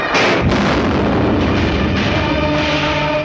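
A gunshot fired at a bandit holding dynamite, from a rooftop during a fight, buried in a dense, continuous roar of battle noise with heavy booming blasts.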